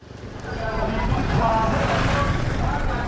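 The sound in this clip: Road traffic in congested streets on the drive from Kampala to Matugga in Uganda: a steady rumble of engines and passing vehicles heard from inside a moving car.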